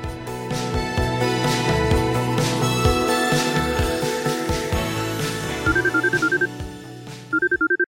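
A telephone rings for a phone-in call. Music plays first, then two bursts of rapid, trilling, high-pitched ring pulses sound near the end.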